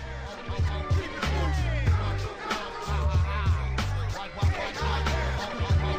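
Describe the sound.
Hip-hop track built on a sample of the final movement of a classical symphony, with a heavy, repeating bass beat up front and the orchestral melody faint in the background, with no talk over it.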